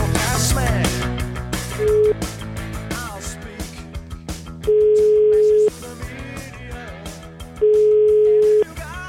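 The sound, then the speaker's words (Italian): Ringback tones sound while calling someone back on the telephone: steady, mid-pitched tones about a second long recur in a slow pattern over music, including one clipped tone and two full ones. “Allora, abbiamo provato a richiamarlo, sentite.”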